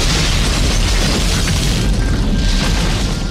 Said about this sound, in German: Dann schüttet er leidenschaftlich den Kanister Benzin über die Holzkohle und schmeißt locker ein Grillzündi obendrauf.